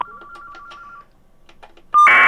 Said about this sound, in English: Sorry, the phone is busy. Please leave a message. Thank you. Start recording at the tone. When finished, press the pound key.